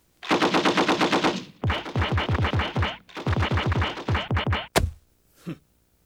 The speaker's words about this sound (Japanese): 撃て、撃ち殺せ。